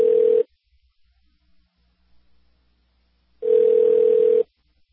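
Ringback tone of an unanswered phone call to the State Department: two steady electronic buzzing rings separated by about three seconds of near silence, with no voices.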